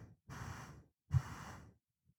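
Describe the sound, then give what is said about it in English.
Slow breaths through the nose during a calming exercise: two soft, airy breath sounds of about half a second each, separated by a short pause, faint and with no talk over them. “Close your eyes. Take a couple slow breaths through your nose.”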